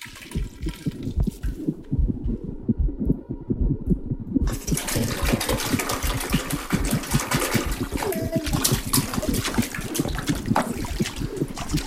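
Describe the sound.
The sea rushes and churns in a continuous, dense wash of water noise with a steady pulsing texture.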